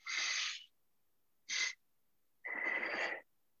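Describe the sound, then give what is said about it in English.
Breathing exercise for calming down: a longer first inhale, a brief second inhale, then an exhale. The three breathy sounds are separated by short silences. “it is two breaths in, the first one longer than the second, and then a short breath out. So I'll try to do it right now.”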